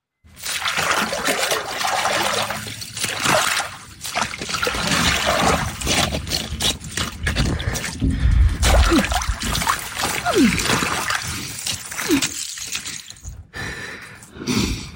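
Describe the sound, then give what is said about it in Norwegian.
Splashing and trickling water as someone takes an ice bath: continuous sloshing and dribbling with scattered drips and splatters, moderately loud throughout and easing slightly toward the end. “Lyden av noen som isbader det der altså”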